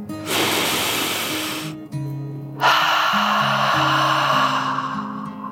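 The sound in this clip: A storyteller voicing a dragon's slow, deep breath: a long breathy hiss drawn in, a short pause, then an even longer, louder exhale, with soft, steady musical tones underneath.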